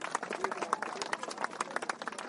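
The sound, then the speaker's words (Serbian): Audience applause at a gathering, a fairly faint, uneven run of many claps with a soft murmur mixed in. “Molim vas još jedan aplauz.”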